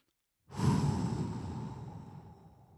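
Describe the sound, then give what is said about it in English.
A single deep breath drawn in a long, airy rush that swells quickly and then slowly tapers away, with no voices. “I want you to take a deep breath with me right now.”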